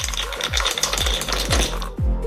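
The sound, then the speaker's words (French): Dice rattle and clatter as they are rolled for a board game, a busy scraping rattle running throughout over a steady beat of about five low, booming thuds. “Et vous allez jouer, lancer les dés.”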